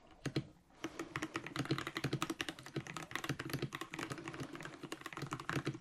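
Rapid typing on a keyboard by a therapist typing in shorthand: many quick, crisp keystrokes clatter in a dense, irregular stream from start to finish, with no talk.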